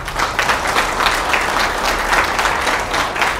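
Loud, dense applause from an audience after a Telugu verse recitation, an even wash of many hands clapping that continues steadily without a break.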